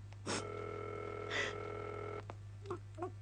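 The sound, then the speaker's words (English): A telephone line tone as an operator rings a number, steady and even for about two seconds with two brief louder bursts over it, then cutting off before a few faint clicks. “We are ringing Ordway 3787 for you, caller.”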